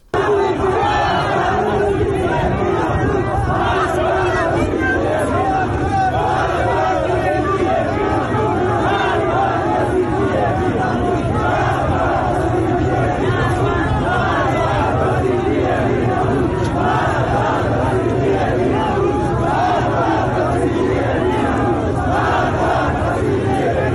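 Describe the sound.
A protest crowd chants during street demonstrations in Ahvaz, Iran. Many voices merge into a dense, steady roar that continues at an even level throughout.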